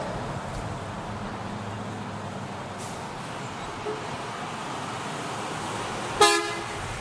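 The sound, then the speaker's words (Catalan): A Greyhound company bus sounds its horn once near the end, a short, bright toot rising out of a steady low engine and road rumble. “És el so d'un autobús de la companyia Greyhound”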